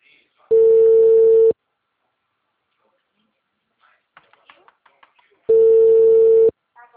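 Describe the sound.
Busy tone on a telephone line after a dropped call: two steady, mid-pitched beeps, each about a second long, separated by a pause with faint voices in between.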